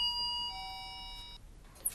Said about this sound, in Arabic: شوفي مين بيرن الجرس.